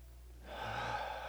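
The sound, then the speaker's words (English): An audience takes a deep cleansing breath during a church sermon: a soft, airy inhalation that swells in at about half a second and holds steady to the end over a low, constant hum. “So everybody take a deep breath.”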